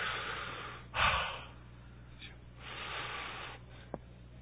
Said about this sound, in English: Or the miracle could have been, take a breath with me.